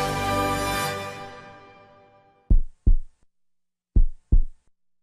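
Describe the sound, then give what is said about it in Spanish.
A heartbeat sound effect of two deep, thumping double beats with a short pause between them. They follow a sustained musical chord that slowly fades out. “Son nuestros latidos los que bombean la fuerza.”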